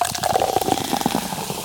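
A drink poured into a glass in a car: a brief, loud, continuous gurgling splash of liquid with a ringing tone, and no talk over it.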